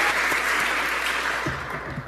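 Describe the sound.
An audience applauds to welcome a speaker at a live fundraising event, with dense, steady clapping that lasts throughout and fades slightly toward the end.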